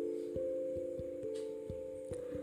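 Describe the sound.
A mobile phone ringing: a steady electronic ringtone with regular beats running through it, fairly faint and with no voices.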